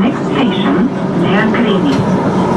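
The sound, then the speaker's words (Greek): A Thessaloniki Metro train at Nomarchia station on the new extension toward Kalamaria, giving a loud, steady rumble with whining tones throughout, with indistinct voices underneath. “Ο Πρωθυπουργός φτάνει στο σταθμό Νομαρχία του Μετρό Θεσσαλονίκης, που αποτελεί έναν από τους νέους σταθμούς της επέκτασης προς Καλαμαριά και επιβιβάζεται σε σειρμό με προορισμό τον σταθμό Μίκρα.”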